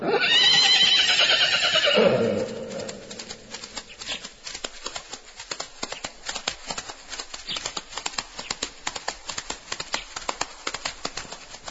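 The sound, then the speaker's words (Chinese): A horse gives a loud, shrill whinny for about two seconds, then moves about with a long run of quick, steady hoofbeats that continue to the end. “马儿啊，如果你真是跑来给我报信的话，你就围着我跑上三圈吧。”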